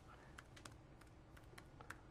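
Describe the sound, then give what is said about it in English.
Sparse clicks of one-handed typing on a computer keyboard, several faint, irregularly spaced key presses over a low steady background hiss, with no voices. “Typing in this for a second. It's a pretty good one-handed typing.”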